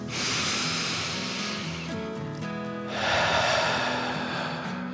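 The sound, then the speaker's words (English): A deep, slow breath in and out during a calming children's meditation: two long airy, hissing swells, the inhale then a fuller exhale, over a soft, sustained musical background. “He took a deep dragon breath in and out.”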